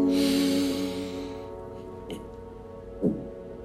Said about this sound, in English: Inhale.